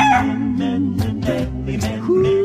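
A rooster crow sound effect stands in for a bionic chicken, with mid-pitched, harmonic, crowing calls rising and falling over a tonal bed.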